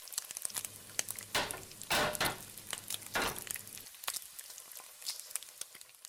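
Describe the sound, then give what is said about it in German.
Fried potatoes sizzling in a pan, a soft crackling hiss broken by a few louder rasping bursts in the first half before settling back to quieter crackle. “Und so klingt es im Schillerhof, wenn Bratkartoffeln gebraten werden.”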